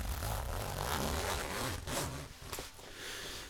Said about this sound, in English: I'm gonna take off my jacket right now, so here's a little ASMR if you're a big fan of zippers and crunchy jackets.